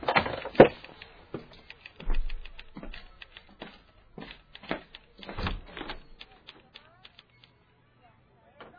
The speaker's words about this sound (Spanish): Cierra por fuera.